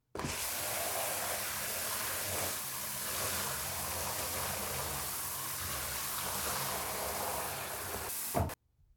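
Steady rushing spray of water rinsing a body, an unbroken hiss lasting about eight seconds before it cuts off abruptly.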